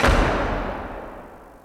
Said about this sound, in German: Und er schlug die Tür zu seinem Palast hinter sich zu, dass es nur so knallte.